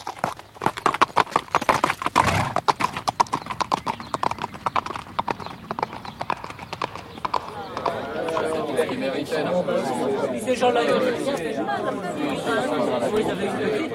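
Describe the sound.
Horse hooves clip-clopping on a road, a fast, steady run of sharp hoof strikes at moderate loudness, with people's chatter joining and thickening in the second half.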